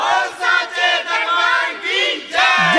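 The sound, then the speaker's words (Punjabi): Massed voices of a devotional crowd shouting the jaikara to the goddess Sheranwali, loud sustained cries that swell and dip in repeated surges, ending on a fresh, strong burst of shouting. “ਦੋਨੋਂ ਹੱਥ ਉੱਤੇ ਕਰਕੇ ਇੱਕ ਵਾਰੀ ਗੱਜ ਕੇ ਆਖੋ ਜੈਕਾਰਾ ਸ਼ੇਰਾਂ ਵਾਲੀ ਦਾ”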